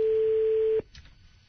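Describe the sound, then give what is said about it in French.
A telephone ringback tone sounds on an outgoing call: one steady, pure, mid-pitched tone holds for under a second, then cuts off into faint line hiss. “Oui, ça sonne, il est content.”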